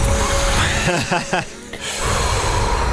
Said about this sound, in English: Breathe in, breathe out, continue.